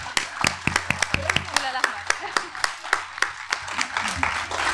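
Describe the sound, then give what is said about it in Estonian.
Continuous audience applause inviting a performer onstage, heard as many sharp, distinct claps in an irregular but steady stream from a modest group, with voices mixed in beneath. “me teeme sulle hästi suure aplausi ja me palume sind meie Kristiina asemel lavale, sest me ei oska ise seda nii teha. teeme jätkuva aplausi.”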